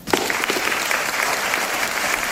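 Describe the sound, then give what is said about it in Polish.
Theatre audience applause on International Theatre Day, starting abruptly and holding as a thick, steady patter of many hands clapping, moderately loud and unbroken for the short span. “I oklaski.”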